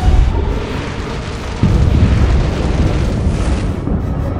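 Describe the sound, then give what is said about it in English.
An explosion destroys castle towers: a loud, sustained rumbling roar that jumps to a heavier surge partway through and keeps churning without a break to the end. “the top of the Red Keep explodes, the towers that for 300 years served as sentries keeping watch over King's Landing are reduced to rubble and ash in a matter of seconds.”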